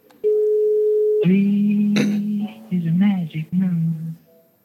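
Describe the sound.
A telephone ringback tone sounds while a call is placed: one steady, even tone lasting about a second. A person then answers and people talk over the line.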